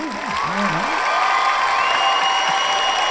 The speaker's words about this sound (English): I don't usually get that kind of applause for a statement like that.